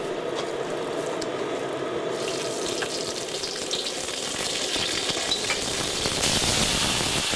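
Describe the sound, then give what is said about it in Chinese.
Hot ginger broth, made by boiling spring water with old ginger, is ladled steadily over a fish on low heat. The fish flesh is cut in a peacock-style pattern. The result is a continuous sizzling, watery hiss that grows slightly louder near the end, with no voices. “山泉水下老姜煮沸，收至微火，不断地用热汤均匀地淋上鱼身”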